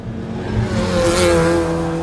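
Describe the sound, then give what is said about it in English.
Roaring engine of a professional race car zooming around a stadium track, a loud, sustained and steady drone with no pauses. “gripping the steering wheel of a professional race car, zooming around a stadium track”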